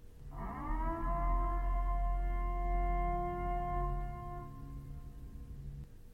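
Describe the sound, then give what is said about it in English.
A civil defense style siren announcing the annual Purge: a loud, steady, droning wail that swells in at the start, holds one pitch for several seconds, then fades out. “You know what that sound means? It's time for the annual Purge.”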